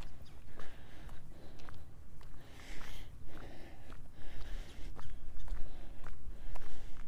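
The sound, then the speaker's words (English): Footsteps on a warm-up walk before a run fall in a steady, continuous rhythm, many steps following one another at an even pace with no voices. “Doing our warm-up walk before we start our long run for today, which is actually going to be a short long run.”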